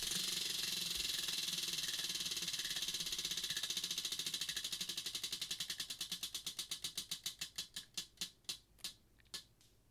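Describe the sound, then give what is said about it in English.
Ticking of a spinning prize wheel, the rapid clicks first blurring into a dense rattle, then gradually spacing out into distinct, slower clicks as the wheel winds down, fairly quiet throughout. “go ahead and be so kind as to spin that wheel. You got it. Spin it.”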